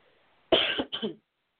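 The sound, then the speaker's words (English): A lingering cough left over after the flu: one short, harsh cough that breaks into two quick bursts, loud and alone with no talk. “But this cough is lingering and lingering,”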